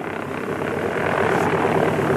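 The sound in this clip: An overloaded airplane strains to take off from a soft, wet, muddy runway; its engine makes a steady, broad droning roar that grows gradually louder.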